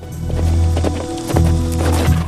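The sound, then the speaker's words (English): A gang of six riders gallops across dusty plains on horseback, hooves pounding in a rapid, loud, continuous rhythm. “The Bucklin Rangers trail behind Billy and Floyd as they gallop across the dusty plains on horseback.”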